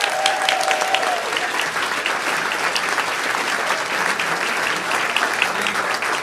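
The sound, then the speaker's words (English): Audience applause at the Dakota for a student all-state jazz band on stage, dense steady clapping that stays even throughout. “Can we give it up for our students up here on stage?”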